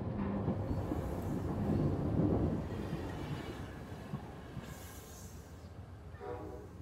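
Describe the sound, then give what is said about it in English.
A train coming to a halt, its low, steady rumble gradually easing and growing quieter as it slows, with no voices. “As the train comes to a halt, there is no announcement.”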